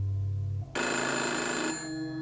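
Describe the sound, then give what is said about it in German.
A telephone rings in a dark, silent house: after a low hum, one shrill, continuous burst of ringing lasts about a second, then fades back to a quieter tone. “das weiterklingelnde Telefon durchschrillte ihre Angst.”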